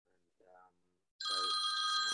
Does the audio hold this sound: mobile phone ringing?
yes